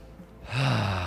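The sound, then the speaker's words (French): A deep inhale taken as a relaxation exercise: quiet at first, then a sudden loud, breathy intake with a slight voiced edge that holds strong to the end. “Donc j'inspire”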